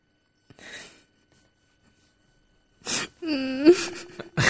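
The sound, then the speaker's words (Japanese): Crying with an echo effect added: a short breathy sob, a pause, then a long, wavering, moaning wail broken by gasps. “泣くな！”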